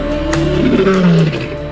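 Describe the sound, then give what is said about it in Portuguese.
A lion roars on a savanna safari: one deep, loud, rumbling roar that carries without a break from start to finish. “Leão.”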